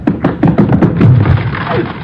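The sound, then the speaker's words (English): Two people rush a flimsy locked door and push it open. A quick run of thumping steps leads into a dull, heavy impact, followed by a low, rough scraping rumble. “Door is undoubtedly locked, but it's flimsy. One push ought to do it. Come on. We'll rush it together.”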